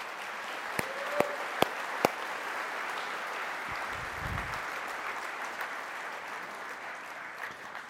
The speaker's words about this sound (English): Give them a hand as they come up.